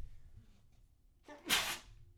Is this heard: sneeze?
yes